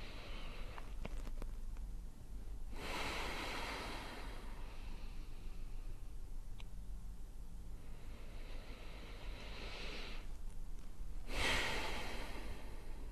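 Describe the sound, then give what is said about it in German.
Slow, deep breaths in and out during a guided relaxation exercise: a few long, airy inhalations and exhalations, soft and breathy over a low, steady background hum. “Dann atme doch einfach nochmal 2-3 Mal tief ein und aus. Nochmal tief einatmen.”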